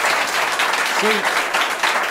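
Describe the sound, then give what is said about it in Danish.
Clapping from a group of listeners, a dense, continuous burst of many hands at a steady level, with a brief voice sounding partway through. “Klap lige, hvis han hæver penge.”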